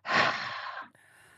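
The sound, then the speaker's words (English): A slow exhale during a guided breathing exercise, heard alone as a soft, breathy sigh that swells quickly, lasts under a second, then fades to a faint hiss. “And as you breathe out, you must just go.”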